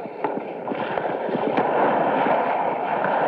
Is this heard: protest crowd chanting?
no